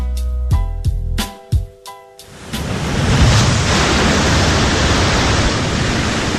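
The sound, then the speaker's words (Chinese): Storm wind and heavy ocean waves batter a ship on the London–Hamburg sea route in 1867. A few heavy thuds open, then a loud, steady roar of wind and surging sea fills the rest. “狂风四座，呼啸的海风卷起汹涌的海浪，拍击着轮船。”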